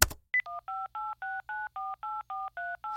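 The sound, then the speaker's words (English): Telephone dialing tones play over a speakerphone as a number is dialed back. They form a rapid, even series of about ten short, clean beeps with no talk over them. “dial the number back. Put it on the speakerphone.”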